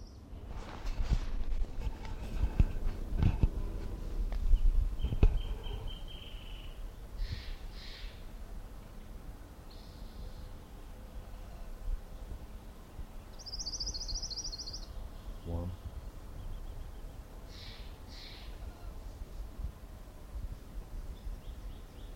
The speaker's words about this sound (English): Orange Crowned Warbler number one.